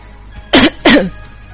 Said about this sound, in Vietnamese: Thạch Tiểu Bảo ho khan hai tiếng